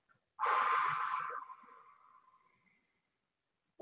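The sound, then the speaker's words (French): A slow exhale during a guided breathing exercise, with one long, soft, airy breath out that starts fairly loud and gradually fades over about two seconds, followed by near silence. “Donc, je, je vous propose d'expirer maintenant ensemble.”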